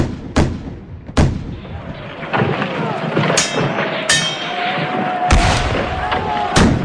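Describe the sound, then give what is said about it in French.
Naval cannon fire in a sea battle: several loud, sharp booms at irregular intervals over a rumbling, noisy background, with voices mixed in. “Elles s'affrontent donc aussi sur les mers, dans des combats navals spectaculaires. Et à l'occasion de l'un d'entre eux, la force de Shango se révèle on ne peut plus utile. Il prend donc part au combat et c'est ainsi qu'il conquiert sa liberté. Feu !”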